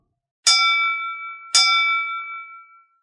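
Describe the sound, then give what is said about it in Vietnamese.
Two bright bell strikes ring out in a large auction hall. Each has a sharp metallic onset and a sustained, shimmering tone that decays slowly, with the second strike about a second after the first. “ba tiếng chuông vang lên lanh lảnh, vọng khắp đại điện. Tiếng chuông lớn khiến cho hội trường náo động lập tức trở nên an tĩnh.”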